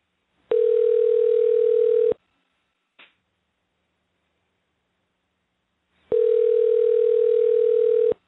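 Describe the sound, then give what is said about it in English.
A telephone line tone sounds while a call is being placed: two long, steady, buzzy tone bursts separated by several seconds of silence, with one short click in the gap. “stand by for a moment while I dial her up.”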